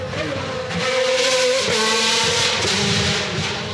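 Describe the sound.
An older race car engine, a road-going rather than circuit car at a Goodwood members' meeting, roars on the hill as a loud, steady, sustained drone.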